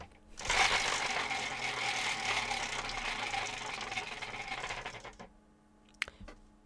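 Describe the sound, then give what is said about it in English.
A wheel of choices spins with a rapid, dense clicking rattle that runs for several seconds before cutting out, followed by a couple of sharp isolated ticks. “Yes, spin the wheel. I will.”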